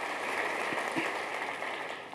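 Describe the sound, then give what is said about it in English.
Congregation hand clapping during a church service: a steady, dense wash of many hands clapping together at an even loudness, with a few low thumps inside it. “Let's give a hand clap to the Lord.”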